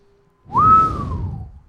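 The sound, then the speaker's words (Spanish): A person whistles a single clear note that rises quickly, holds, then glides slowly downward over about a second, with low rumbling noise underneath. “No lo sé, cuando no sé qué decir silbo.”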